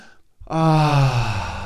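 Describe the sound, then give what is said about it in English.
A long voiced sigh from a guided deep-breathing exercise to clear the mind: a faint breath in, then a loud, steady exhale whose tone slowly falls. “So let's take a deep breath to clear our mind.”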